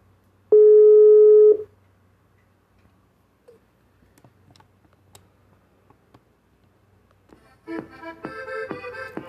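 A telephone ringing tone while a call is placed: a single steady, mid-pitched ring of about one second, then near silence with faint clicks, and a louder tonal sound with rhythmic ticks near the end.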